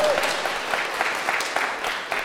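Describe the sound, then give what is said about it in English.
Applause at a wedding celebrating love: many hands clapping in a continuous, busy patter, loudest at the start and easing slightly while staying dense throughout. “But we celebrate, it's a good thing to clap for. Why not?”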